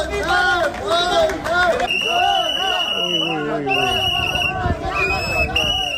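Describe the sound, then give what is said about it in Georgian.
Protesters in a Batumi street shout and chant while loud, high, sustained horn blasts sound several times over the crowd's voices. “აქციის მონაწილეები საყვირებითა და შეძახილებით დეპუტატებს ქუჩებში აცილებდნენ.”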